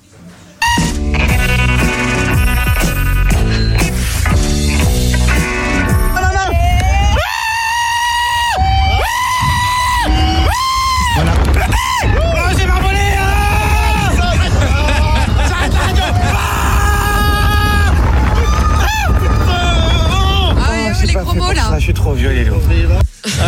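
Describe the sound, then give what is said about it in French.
Riders scream and shout on the Mystique thrill ride at Walibi park. The loud, sustained wailing voices continue over music and crowd babble for the whole stretch. “parc Walibi, c'est Mauka, il y a plein d'attractions à sensations fortes. Moi, j'avais essayé quoi? C'était Mystique. Alors, écoutez l'extrait où je teste cette attraction.”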